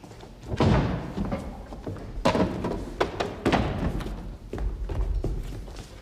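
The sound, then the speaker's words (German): A chair with a backrest is picked up and set down on a theatre stage, giving several dull wooden thumps and knocks with rustling and scraping between them. “Nehmen Sie einen Stuhl mit Lehne”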